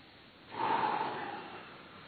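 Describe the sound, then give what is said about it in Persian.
An audience drawing a deep breath together, one breathy inhale that swells suddenly, holds for about a second, then slowly fades. “با دیگه دستاتون بریم بالا یه نفس عمیق بکشیم”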